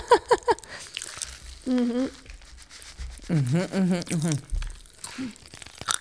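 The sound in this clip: Fruit-flavoured popping candy from Denmark crackles and fizzes in a mouth as it is eaten. Soft irregular crinkly pops run under a few voiced exclamations and sighs, with a quick cluster of clicks at the start.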